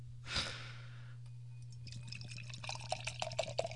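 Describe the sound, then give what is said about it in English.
A can of Hell or High Watermelon Wheat beer cracks open with a short, sharp hiss, followed after a pause by the trickling, fizzing splash of the wheat beer being poured, growing busier toward the end. “it's now called Hell or High Watermelon Wheat. 5.5% alcohol, 17 IBUs. So let's crack a can.”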